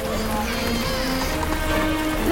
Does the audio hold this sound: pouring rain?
yes